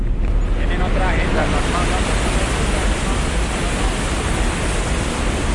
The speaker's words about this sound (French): Ce bruit est celui de l'eau du barrage de la ville d'Ituango, dans la région d'Antioquia.